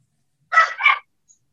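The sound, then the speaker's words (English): A dog barks twice in quick succession: two short, sharp, fairly loud yaps close together, followed by quiet. “sorry, that's my dog”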